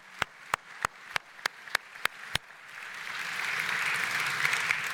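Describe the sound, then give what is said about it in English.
A church audience applauds to welcome a guest: eight evenly spaced sharp claps lead off, then broad applause swells and holds steady. “And so let's give Judy a really warm welcome.”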